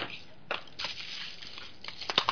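A package is opened and unwrapped with quick bursts of tearing and crinkling packaging, sparse at first and then denser toward the end.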